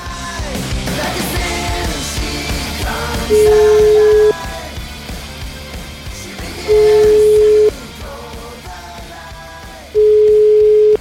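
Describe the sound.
Ringback tone of an outgoing telephone call: three steady, mid-pitched beeps, each about a second long and evenly spaced, over continuous background sound.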